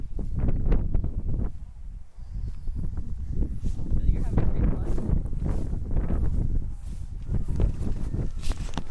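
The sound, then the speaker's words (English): Wind blowing outdoors, a loud, continuous, low rumbling roar with gusting surges that buffet throughout. “You can hear the wind. The wind sounds really nice. It's the wind.”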